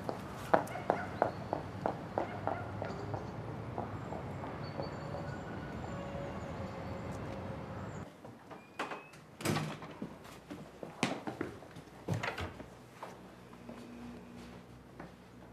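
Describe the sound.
Footsteps and a door as a girl enters an apartment: a string of light, regular steps, then a shift to scattered louder knocks and clicks from the door and movement.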